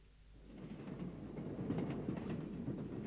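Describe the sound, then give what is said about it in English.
Rumble of a train running on rails, a broad, steady roar that builds over the first second and then holds at a constant level with no voices. “Excuse me. Does this train stop at Gatwick?”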